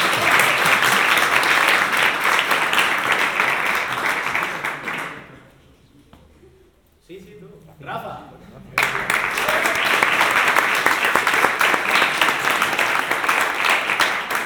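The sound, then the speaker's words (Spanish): Loud applause from the audience at a game jam event, a dense, sustained clapping that fades almost to quiet midway, then surges back to full strength until the end. “¡Aplauso!”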